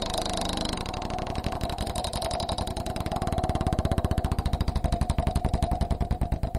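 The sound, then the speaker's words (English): Rapid, loud clicking of a joke wheel as it spins, a dense run of regular ticks that continues steadily for the whole stretch. “Anyway, let's spin it.”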